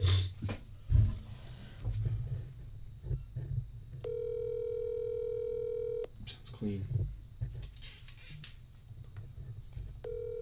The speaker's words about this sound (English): Okay, call. Give him a call.